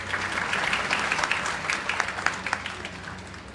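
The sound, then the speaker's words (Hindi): Audience applause at a university degree ceremony honouring gold medal winners: steady, fairly faint clapping from many hands, with a few sharper claps standing out near the end. “तालियां बजती रहें।”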